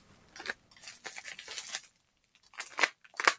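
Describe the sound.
Cutting open a package wrapped in bubble wrap: faint, uneven bursts of crinkling, scraping and tearing that come in a few short runs separated by brief pauses.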